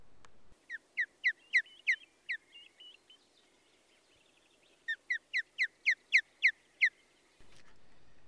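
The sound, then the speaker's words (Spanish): An osprey calls in two bursts of repeated high, sharp whistled chirps. Several evenly spaced notes come in each series, separated by a short quiet gap, with fainter chirps trailing after the first burst. “Aquí hay la población más grande de águilas pescadoras de Europa. Es casi tan grande como el águila real. Suena así.”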